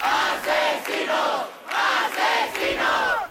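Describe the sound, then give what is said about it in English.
Spanish protesters chant "murderers" in unison during a housing-cost protest. The crowd shouts a loud, rhythmic phrase several times, with short pauses between the bursts. “That is the sound of protesters chanting murderers.”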